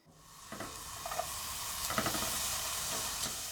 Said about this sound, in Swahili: Weka siagi kwenye sufuria na ukaange kitunguu kwa kutumia moto wa chini.